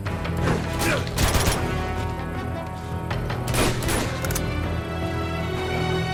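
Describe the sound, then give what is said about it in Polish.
Video game gunfire crackles in a few loud, sharp bursts over a steady droning background. “Gdzie ten gość mi strzela?”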